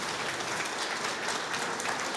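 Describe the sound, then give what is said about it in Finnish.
Loud, steady applause from an audience as a singer walks onto the stage: a dense, unbroken clatter of clapping that holds an even level throughout, with no talk over it. “Koskelan Mika tulee raikuvien aplodien saattamana”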